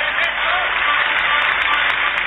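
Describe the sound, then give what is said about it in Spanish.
Sustained applause as an audience gives a standing ovation for an actress in Argentina, a dense, even wash of clapping that holds at a steady, fairly loud level for the whole stretch. “le quiero pedir a todos ustedes un aplauso de pie para la actriz Florencia Peña”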